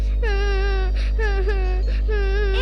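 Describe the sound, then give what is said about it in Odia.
A small child cries in three loud, wavering wails with sharp gasping breaths between them, high-pitched and strained, heard alone over a low steady hum. “ଛୋଟ ପିଲାଟାକୁ ଏମିତି କାହିଁ କହିଲୁ, ସେ କାନ୍ଦିଲା।”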